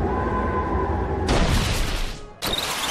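A Wind Force attack sound effect from a turn-based monster battle video game: a loud rushing burst cuts in over a steady low game tone, drops off briefly, then returns as a second burst.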